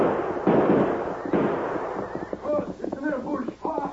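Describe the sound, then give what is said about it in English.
Two loud gunshot bursts ring out during an ambush scene in a radio drama. Voices follow, talking over the fading echo. “Aim for Brandon. Shoot!”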